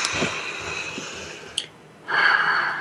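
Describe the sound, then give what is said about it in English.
A group takes a deep breath together: a long, airy inhale is followed by a pause and a small click, then a breathy, hissing exhale, soft and unhurried with no talking. “I would love us just to take a deep breath together, including my amazing guests.”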